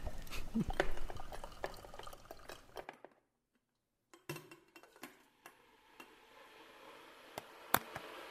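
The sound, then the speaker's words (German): Coffee is hand-brewed with a secondhand filter: quiet clinks, taps and ticks of utensils, busier at first, then a near-silent pause, followed by sparse clicks and soft liquid trickling. “Machen wir erstmal einen Kaffee. Per Hand mit Filter vom Trödel.”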